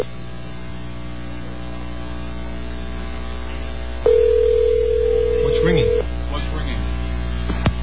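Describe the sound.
Telephone line rings during a call to an 800 number: one steady ring tone of about two seconds over a constant low hum, with a voice briefly audible near the end of the ring.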